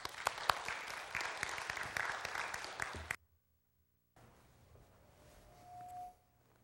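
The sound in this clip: A church audience applauds to welcome a visiting speaker from the Gideons, a dense burst of clapping that lasts about three seconds and then stops abruptly, followed by quiet room noise.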